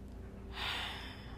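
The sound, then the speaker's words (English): A slow, deep breath drawn in through the nose comes as a soft, breathy hiss lasting under a second over a low, steady hum, faint and without speech. “just take three deep breaths in through the nose and out through your mouth.”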